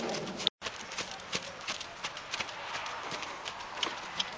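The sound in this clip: A saddled horse trotting, heard as a steady run of light, rhythmic hoof clip-clops. The hoofbeats are fairly faint against a constant background noise.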